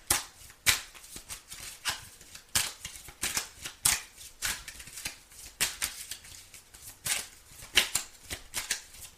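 Tarot cards being shuffled: many quick, crisp riffling bursts in an uneven rhythm, each a short papery flutter, fairly quiet and with no talk over them.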